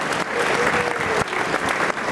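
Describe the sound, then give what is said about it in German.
Applause from a crowd gathered at a train station in Davos: dense, steady clapping that fills the whole clip at an even, fairly loud level, with no clear talk over it. “Die Ersten haben sich am Bahnhof versammelt und klatschen der Valérie Favre-Acola zu.”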